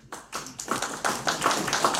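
An audience claps along in a rhythmic, fairly regular beat of many sharp hand claps that grows slightly fuller as it goes on.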